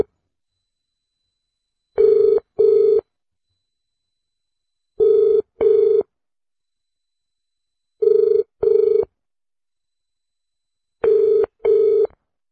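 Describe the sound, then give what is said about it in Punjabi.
Ringback tone of an outgoing phone call: four evenly spaced double beeps at a steady mid pitch, each pair followed by about two seconds of silence, clear and alone with no voices. “ਲਓ ਫਿਰ ਆਪਾਂ ਕਾਲ ਕਰ ਦਿੱਤੀ ਹੈ ਤੇ ਵੇਖਦੇ ਹਾਂ ਕਿ ਕਾਲ ਚੁੱਕਦੇ ਆ ਜਾਂ ਨਹੀਂ ਚੁੱਕਦੇ। ਲਓ ਜੀ ਕਾਲ ਚਲੀ ਗਈ ਹੈ।”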